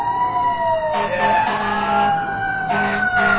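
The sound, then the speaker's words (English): A loud emergency siren wails in a long tone whose pitch slowly falls, with bursts of vehicle noise and rumble underneath. “There it is. There's a siren.”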